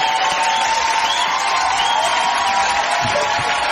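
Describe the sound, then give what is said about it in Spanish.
An audience applauds and cheers a poet. Loud, dense clapping mixes with a few whoops in a continuous burst lasting several seconds. “Muy Bien, aplausos.”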